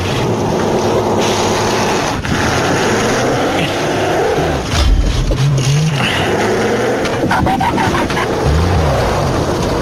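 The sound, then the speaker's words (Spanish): A stuck car's engine revs hard, its pitch climbing and dropping in repeated surges over a rough, noisy whoosh. The strain is loud and continuous, with no voices. “¡Estás atorado, te digo! ¡Vas a quemar el motor!”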